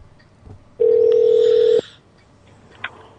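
A hotel telephone line rings while an extension is tried: a single steady electronic ring tone lasts about a second, followed by quiet.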